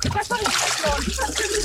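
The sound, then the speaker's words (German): Water splashes and sloshes as someone slides down into a 28-degree warm swimming pool, with voices talking over the continuous wet churning. “Ich rutsche runter ins 28 Grad warme Becken. Oh, das ist es schön? Es ist richtig schön. Wasser so bis zum Bauch.”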